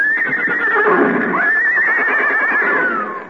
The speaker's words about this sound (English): Now, come on, everybody. We'll get our horses.